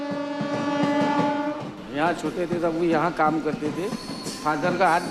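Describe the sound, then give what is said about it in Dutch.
A train horn at Vadnagar railway station, India, blows a loud, sustained, harmonic blast, followed by rail clatter as people talk over it. “Suresh Pai staat op het station van Vatnagar op de trein te wachten.”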